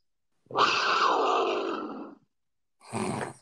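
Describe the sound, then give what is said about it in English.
A cougar's call, used as the dubbed voice of a lioness: one long, raspy, roaring cry lasting well over a second, then a pause and a second, shorter rough call. “It's not even a big cat. It's got it in the name. That's the closest name it gets. This is the sound of a cougar.”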